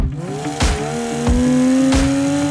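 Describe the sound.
A car engine revs with a loud, steady drone whose pitch climbs gradually. Three brief, sharp bursts cut across the sustained engine tone.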